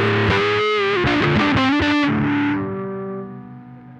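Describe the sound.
A bright, fizzy fuzz-distorted electric guitar tone with the treble turned all the way up plays several choppy chord hits, then one long sustained note that slowly fades.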